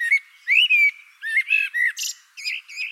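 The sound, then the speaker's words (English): Blackbird song: a run of clear, fluting whistled notes and short chirps, alone and bright, with brief gaps between many rising and wavering phrases. “Researchers have studied the composition of blackbird songs, their structure is remarkably complex.”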